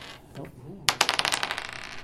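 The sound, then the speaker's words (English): Dice rolled to decide who goes first in a card game: a sharp clatter followed by many quick, decaying bounces and rattles, preceded by a brief murmur of voice. “And let's roll to see who goes first.”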